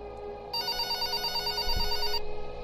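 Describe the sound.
A telephone rings in one steady, bright burst of about a second and a half, then stops, over a low background hum.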